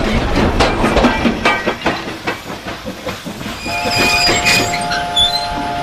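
Train wagon rolling on the rails with a rhythmic clickety-clack, scattered metallic squeaks and a hiss, and a thin high squeal rising out of the rumble toward the end.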